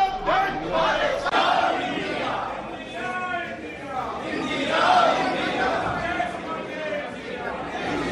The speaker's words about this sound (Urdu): راہل گاندھی پیر کو جب لوک سبھا پہنچے تو 26 جماعتوں کے اپوزیشن اتحاد انڈیا کے ارکان پارلیمنٹ نے ان کا استقبال کیا اور ان کے حق میں نعرے بازی کی۔